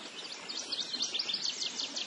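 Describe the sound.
Birds chirp in a quick, high-pitched stream of many short calls. The sound stays faint over a soft, steady background hiss.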